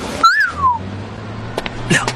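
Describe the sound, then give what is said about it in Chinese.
A person whistles cheerfully while leaning against a car on a street. One brief, clear whistle climbs slightly and then glides down in pitch, followed by faint soft clicks over a low background hum. “愉快地吹了个口哨”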